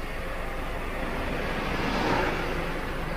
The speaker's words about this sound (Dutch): Nou, het is druk hier, hè? Ja, het is hier eh, vrij druk. De grote trucks en zo, een leger rijdt voor ons. Een grote groene.